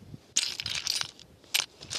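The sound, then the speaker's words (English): Coins, crystals and rocks rattle inside a chest in two bursts of bright clinking and jingling, the first longer and scattered, the second short and sharp, fairly quiet against near silence. “The chest. Can you hear it? Yeah. So I have some crystals, rocks, coins,”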